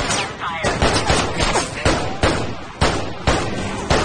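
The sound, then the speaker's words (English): Gunfire exchanged between a gunman and police officers in a street beside stopped police cars: many sharp, loud shots crack out one after another at a fairly regular pace, each followed by a short ringing tail. “Gabriel shoots at the officers. The officers exchange fire. One officer runs behind the convertible.”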